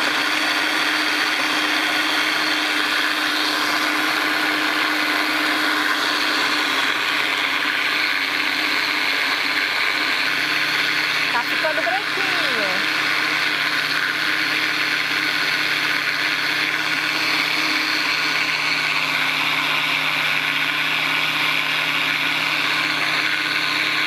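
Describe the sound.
A blender runs steadily, blending melon seeds into an unstrained milk with a constant, unbroken whirring drone that stays at one pitch and loudness throughout, with no talk.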